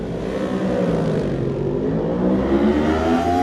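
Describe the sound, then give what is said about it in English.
A 1000cc Yamaha racing motorcycle sets off in a road race, its engine a loud, continuous roar that holds steady and swells slightly toward the end. “44 is next to go. 44 is of course Tom Robinson on the Pete Stacey Racing 1000cc Yamaha.”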